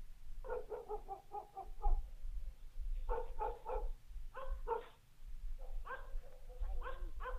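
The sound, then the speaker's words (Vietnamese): Dogs barking at night in a village, faint and yappy, in several bursts of quick repeated barks separated by short lulls over a low steady hum. “Đầu đó ho có tiếng chó cắn ma cứ nhấm nhẳng vang lên trong đêm tối.”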